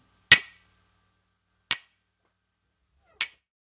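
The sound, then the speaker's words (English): A mug of English breakfast tea and a glass of water are banged together three times. Each clink is sharp and bright and fades quickly, with the knocks evenly spaced about a second and a half apart. “I have my cup of tea here. It's English breakfast tea today, and a glass of water. And if I bang them together,”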